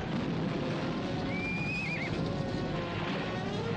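A cavalry officer's horse gives a single short, wavering, high neigh during a battle charge into an infantry square, rising over a steady, dense wash of noise with faint hoof movement.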